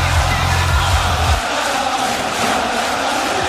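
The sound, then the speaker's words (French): Wrestling-event crowd chanting an old stadium song in response to a wrestler's catchphrase, a loud, continuous mass of voices roaring together with no pause. “le public a décidé de reprendre une vieille chanson de stade bien ringarde. Écoutez.”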